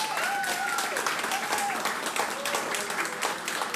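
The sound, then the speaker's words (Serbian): An audience applauds after a live concert performance. The dense, even clapping holds steady throughout while a voice speaks over it. “Zaslužili su još jedan veliki aplauz.”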